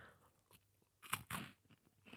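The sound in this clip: Dutch liquorice coins being crunched and chewed: a few faint, crisp bites, with two louder crunches close together midway and softer chewing around them. No one talks.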